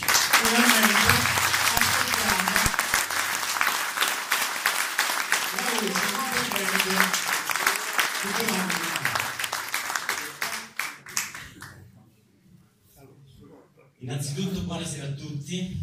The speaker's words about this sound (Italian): E allora in questo momento con un caloroso applauso